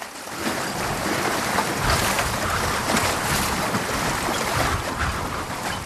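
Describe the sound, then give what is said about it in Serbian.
Sea and wind around a pirate sailing ship with a triangular sail on a single mast: a loud, continuous rushing roar of waves and gusting air that stays steady throughout. “To je taj gusarski brod.”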